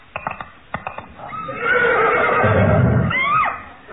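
A horse neighs after a freak riding accident. A few sharp hoof clops come first, then a long, loud, quavering whinny that trails off at the end.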